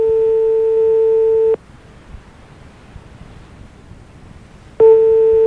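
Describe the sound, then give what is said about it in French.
Telephone busy signal: a loud, steady tone holds for about a second and a half, cuts to near silence for roughly three seconds, then starts again. “Vous êtes seul chez vous, ça sonne? Ça sonne occupé chez vous?”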